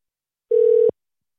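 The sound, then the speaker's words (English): A telephone dial tone heard while calling someone back: one steady electronic tone lasting under half a second, alone in silence, cut off by a brief click. “Yo, Flo, I'm going to call you back because we can't hear you. Let's try that again. Yeah, you actually might have to call him.”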